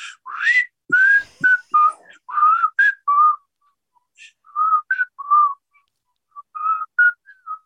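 A person whistles a song's melody, copying a concert crowd whistling along. Clear, pitched notes come in short phrases split by brief pauses.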